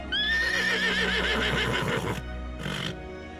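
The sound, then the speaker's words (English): A horse at a stable, settling into new surroundings, lets out a long, loud, wavering whinny, followed by a brief second burst of sound. “there was a horse making all of these sounds as he settled into his new surroundings at a stable in the southwest of England.”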